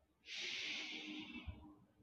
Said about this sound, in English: gently breathe it in and out. 3 deep breaths in